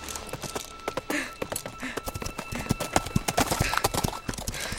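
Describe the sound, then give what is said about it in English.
Hooves of an old mare clip-clop on a Manhattan street as she is ridden, a steady run of sharp, loud knocks in an uneven walking rhythm throughout. “As I rode the old mare down the streets of Manhattan, I knew the trouble I was about to cause.”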